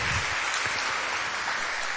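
An audience applauding during a church worship service, giving a soft, continuous wash of many hands clapping that holds steady without a break.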